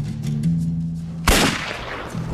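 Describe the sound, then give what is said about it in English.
A gunshot sound effect cracks out once as a single sharp, loud burst partway through, then decays quickly over a low, droning tonal background. “Damn, so our man Simon has just been shot. Gun-wise. By the hot villain. Yeah, the hot villain has shot gun at our man.”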